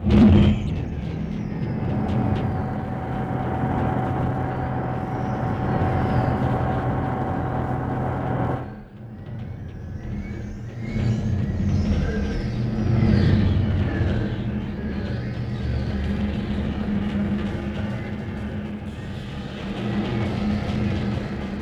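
A spaceship landing sound effect: a loud, steady mechanical rumble and whir runs throughout, dips briefly partway through, then swells again with a hissing edge.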